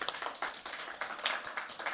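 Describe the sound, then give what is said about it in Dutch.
Applause for an expert guest: a small group claps in fairly regular, crisp bursts that keep a quick, steady pace. “Een groot applaus voor onze eerste expert, Dina.”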